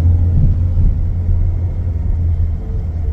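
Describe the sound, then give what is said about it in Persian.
Low, steady engine rumble from cars queuing in a fuel line at a petrol station, a dense continuous drone with no distinct passes or horn blasts, loud and unbroken throughout. “نصف عمرمون رد شد تو صف گازی. صف پمپ بنزین پاسداران.”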